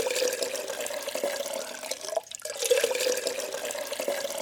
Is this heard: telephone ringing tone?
no